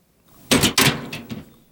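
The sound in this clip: An emergency door being opened: two sharp, loud clunks in quick succession, then a couple of fainter knocks as the door moves.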